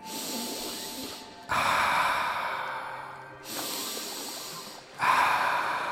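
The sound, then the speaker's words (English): Deep breaths drawn in and let out, long airy rushes of air that alternate between inhaling and exhaling for about two full cycles, each breath swelling and fading smoothly. “It's time to take a breath.”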